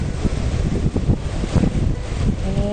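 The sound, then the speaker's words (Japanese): Rough ocean waves surge and churn under strong wind that buffets the microphone, giving a low, rumbling roar with uneven pulses as the water breaks. “なんかもう波がすごい、どんどんどんどん”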